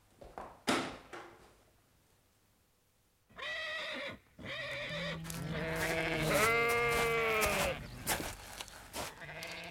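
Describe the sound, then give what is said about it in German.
Sheep bleating in a paddock: a few drawn-out, wavering bleats, one long and loud, following a short sharp knock and a quiet pause. “Wie ich sehe, haben Sie auch einige Schafe auf der Koppel”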